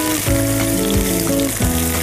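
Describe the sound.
Food frying in a hot pan gives a loud, steady sizzle, a dense continuous hiss with fine crackling and no talk over it.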